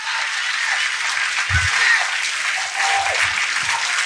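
A church audience applauding: steady, loud clapping from many hands continues without a break for several seconds.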